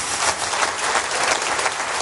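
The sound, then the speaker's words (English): A warm round of applause at a political gathering of party members and trade unionists as a speaker is about to take the stage: dense, sustained clapping, loud and steady from start to end. “A nice warm round of applause for Andy Burnham”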